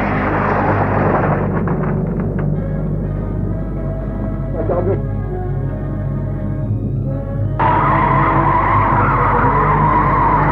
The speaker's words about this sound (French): Pour les sensations, on a mis le paquet. Voiture en feu. Dérapage, carambolage,